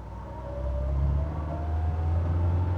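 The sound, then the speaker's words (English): A car driving along the road to Birmingham gives a steady, low engine rumble and road drone that holds almost unchanged throughout, with a faint, higher hum above it. “Mr. and Mrs. Wilde are driving to Birmingham to visit some relations of theirs.”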